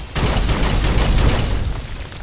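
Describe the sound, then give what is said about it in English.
An explosion in the video game Fallout begins with a sudden heavy boom, then a sustained, loud rumbling roar that continues to the end, with no talk. “I just had to blow him up to get them unstuck.”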